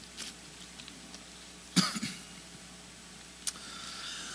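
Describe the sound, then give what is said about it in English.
Faint coughing and throat clearing from a tickle in the throat: a small early burst, then a sharp cough with a quick follow-up, and one last brief clearing sound. “Excuse me, I got a little tickle in my throat.”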